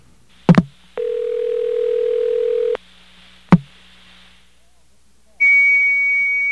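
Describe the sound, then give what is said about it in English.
Computer tone on a payphone line on 8th Avenue: sharp clicks, a steady mid-pitched tone that stops, another click, then a sustained high-pitched electronic tone holding to the end. “Well, listen to that. It's a computer tone.”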